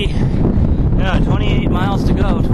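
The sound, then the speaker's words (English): Strong headwind roaring and buffeting against a microphone during a bike ride, a loud, continuous low rumble with a voice faintly audible through it. “With a killer headwind.”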